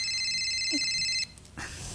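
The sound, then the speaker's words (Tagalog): Cellphone ringing with an incoming call: a steady, bright electronic ringtone holds for just over a second, then cuts off abruptly, leaving faint background noise. “Ay, anakong cellphone. Ha? Hitata ito natawag.”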